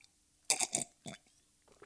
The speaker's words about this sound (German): kurz einen Schluck Wasser genommen, weil Wasser ist das Lebenselixier, meine Freunde.